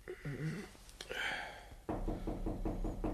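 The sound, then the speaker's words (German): Knocking on a bedroom door in the morning: a run of several quick, evenly spaced raps, fairly faint and steady. “bis mein Diener am nächsten Morgen an meine Schlafzimmertür klopfte”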